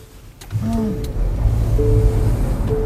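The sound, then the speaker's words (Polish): A car loaded with electronics being started, giving a few short electronic chimes and gliding tones over a low, steady rumble. “Ten samochód wytwarza różne dziwne dźwięki, ostrzeżenia, kurczę, jest naładowany elektroniką. To co, odpalamy?”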